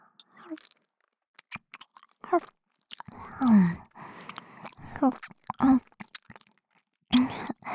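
Mouth nibbling on an earlobe: many short, wet chewing and biting clicks in irregular bursts, interspersed with soft breathy vocal murmurs.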